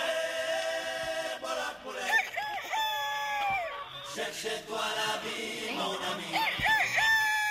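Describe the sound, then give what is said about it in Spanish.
A rooster crows repeatedly, the loud, wavering calls rising out of a dense, busy backdrop. “pues sonando fuerte por nuestro gallo Kikiriki.”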